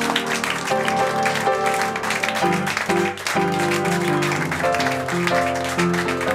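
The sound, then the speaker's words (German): Applause for a performer after a piano-accompanied act: a dense, continuous wash of clapping that stays loud throughout, with sustained musical tones sounding beneath it. “Bravo! Applaus”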